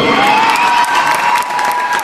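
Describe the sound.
Applause and cheering from a crowd for a school team at a North Jutland packed-lunch contest in 2011, dense and steady from start to end with scattered whoops rising above the clapping.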